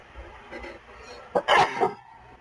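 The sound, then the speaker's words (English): A single sneeze from someone who says they may be getting sick: a short, sharp, explosive burst that stands out loudly against a quiet, faintly murmuring background. “I apologize for sneezing. I may be sick.”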